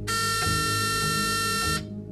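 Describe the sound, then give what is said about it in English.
A courtroom buzzer sounds as a jury reaches its verdict after 24 days of deliberation, giving one loud, steady, harmonic-rich buzz that holds evenly for nearly two seconds and then cuts off. “A buzzer burst the silence.”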